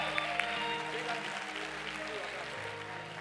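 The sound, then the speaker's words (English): A church audience claps their hands, a faint continuous clatter mixed with voices and sustained tones. “Clap your hands for his word.”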